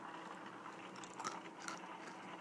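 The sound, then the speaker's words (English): Faint crunchy chewing of peanuts, a steady run of soft bites and mastication with a few sharper crunches, no talk. “Get your peanuts. There we go. I'm going to eat some right now.”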